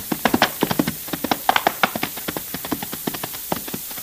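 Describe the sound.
Horses' hooves clip-clop as riders set off, a quick, uneven run of many sharp knocks that grows slightly fainter toward the end.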